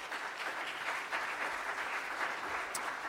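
Audience applause welcoming a guest to the stage: steady, dense clapping at a moderate level that holds for the whole stretch.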